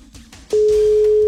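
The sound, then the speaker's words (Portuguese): Ringing tone on an outgoing telephone call: a loud, steady single-pitch tone begins about halfway through and holds to the end, after a few faint soft noises. “Simbora, primeira tentativa. Atenção. É, primeiro toque, Irene.”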